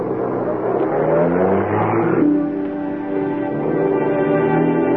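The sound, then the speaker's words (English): A car drives off: a loud, steady engine drone with humming tones that swell and then settle, heard alone without talk. “She drives off.”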